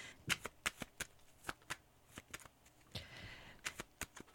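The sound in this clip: Flower oracle cards being shuffled: many crisp snaps and papery riffles in an uneven rhythm, with a brief softer rustling run near the middle.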